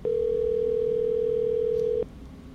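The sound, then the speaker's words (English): Telephone voicemail tone, a single steady mid-pitched beep held for about two seconds before cutting off abruptly into near silence. “What's with all these newfangled voicemail systems?”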